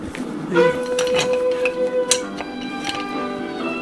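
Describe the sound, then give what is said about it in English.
Wooden spoons are picked up and knocked together as a folk percussion instrument before a waltz. Several sharp, bright clacks and clicks come in an irregular cluster, then fade to lighter taps. “I'm going to get my wooden spoons here.”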